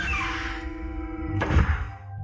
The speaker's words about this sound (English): when a door slid open above them in an upper gallery.